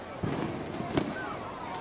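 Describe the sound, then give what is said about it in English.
A few faint fireworks bangs going off around a neighbourhood at night near a baseball game, brief scattered pops over a low, steady background wash. “And the fireworks out in the neighborhood are in full force now.”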